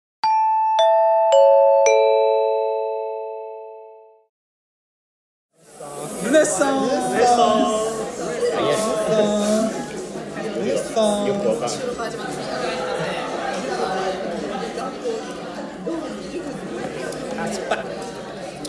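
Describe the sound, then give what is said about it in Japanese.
Diners chatter inside a Saizeriya restaurant. First a short multi-tone electronic chime rings out alone, then after a brief silence comes a steady murmur of many overlapping voices with clinks and bustle. “ここからの音声はサイゼリアで急遽収録したものになります。”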